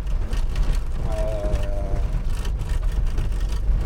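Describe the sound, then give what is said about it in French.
A car rolls over stones on a rough track between Toulon and Collobrières, making a steady, loud rumbling roar with dense crackling and crunching noise throughout and no break. “Ben comme vous pouvez l'entendre, ça fait du bruit, hein. On roule dans les cailloux.”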